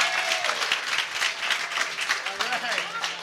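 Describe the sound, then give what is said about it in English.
An audience applauds at a live event, with dense, steady clapping lasting about three seconds and voices audible over it. “Can everybody have a big round of applause for our producer, the executive producer, Michael Bussing?”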